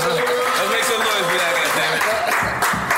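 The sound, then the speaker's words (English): An audience at a hip-hop interview applauds with continuous, dense clapping, and voices are heard talking over the applause. “Make some noise for that, God damn it.”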